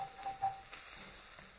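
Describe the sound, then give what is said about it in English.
Vegetables browning in a soup pot sizzle with a faint, steady hiss while being stirred, a few soft scrapes and clicks rising briefly above the low crackle. “So I'm stirring. All this stuff is getting super browned. Turning it way down to low. Super low.”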